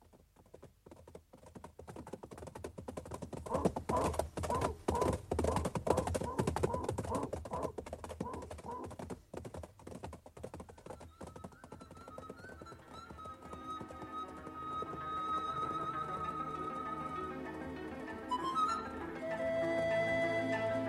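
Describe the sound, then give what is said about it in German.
Horses being saddled in the Carpathians: dense, busy clattering and knocking for about twelve seconds, then music swells in and takes over. “sattle die Pferde”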